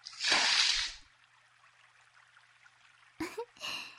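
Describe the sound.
Water splashes in a short, loud burst while someone's body is being washed, then settles into a quiet, faint trickle. A few brief splashes return near the end.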